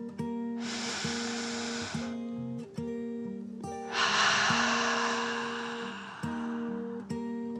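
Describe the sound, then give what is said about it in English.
Deep, calming dragon breath in and out: two long, airy whooshes, the second fuller and longer than the first, over soft, steady held musical tones. “Winfield took another calming dragon breath in and out.”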